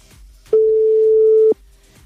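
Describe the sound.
A telephone tone sounds while a call is placed: a single steady mid-pitched beep lasting about a second, with faint low noise before and after.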